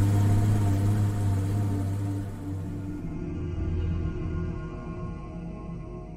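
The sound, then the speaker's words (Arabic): Car engine droning as the vehicle speeds off across the savanna. The low rumbling hum with layered tones eases slightly in loudness after the first couple of seconds and then holds steady. “وانطلقت السيارة تنهب الأرض نهبا وتطويها طيا”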